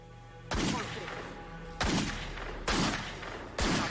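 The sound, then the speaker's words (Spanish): Four loud gunshots from a .357 Magnum revolver fired into woods, sharp cracks with long decaying tails at uneven intervals, over a low steady drone. “Tomó una Magnum 357 y empezó a disparar al bosque.”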